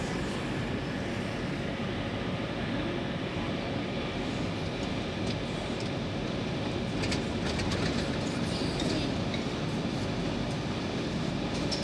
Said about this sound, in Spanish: estoy en el subte